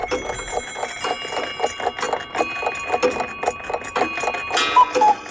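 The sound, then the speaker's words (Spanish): Many clocks tick and chime in different tones and rhythms, a dense, steady pattern of overlapping strikes with ringing bell notes near the end. “Los relojes, uno tras otro, con distintos tonos y ritmos, empezaron a dar las 3 de la tarde.”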